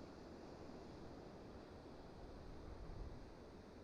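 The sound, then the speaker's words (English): Ocean waves rolling in at night along the Humboldt County coast, a faint, steady low wash of surf with a slight swell toward the end. “I'm sitting overlooking the ocean with the moon behind me, illuminating the waves as they roll in.”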